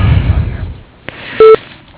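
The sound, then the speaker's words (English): An office answering machine sounds its tone before a caller leaves a message: one short, steady electronic beep, preceded by a soft click over faint hiss. “We are either on the phone or out of the office. Please leave a message after the tone.”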